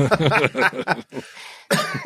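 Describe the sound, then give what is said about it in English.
Coughing from someone still a little sick with lingering phlegm: a few harsh, raspy bursts close together, then a short pause and one more loud cough, with no talk over them. “You're still coughing. Yeah, still a little sick.”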